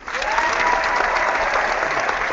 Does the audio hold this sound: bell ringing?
no